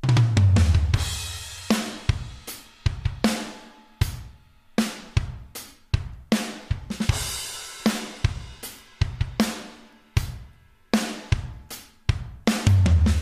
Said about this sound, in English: So in my demo piece of music that I'm making, it sounds like this, a pretty simple drum part.